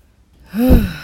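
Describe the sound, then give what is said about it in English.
A voice imitates a fire breath with one forceful, breathy huff that swells quickly out of near silence and then trails off. “Oh, sorry, I didn't mean to do that. You know, I lose control of my fire breath a bit when I get angry.”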